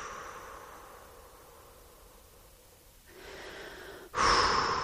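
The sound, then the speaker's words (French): Breathing out slowly to release tension in the chest and shoulders during a relaxation exercise: a steady, soft breathy rush that swells and ends in a louder, fuller exhale. “Soufflez, relâchez le sternum, les épaules.”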